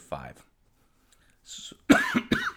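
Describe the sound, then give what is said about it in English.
A person with a lingering cough gives a short cough, followed by quiet sounds and then speech. “excuse me, still got a cough”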